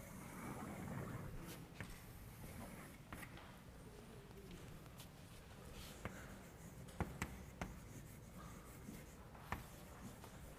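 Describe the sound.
Faint scratching of a hand writing out a Diophantine equation, soft continuous strokes broken by a few light taps.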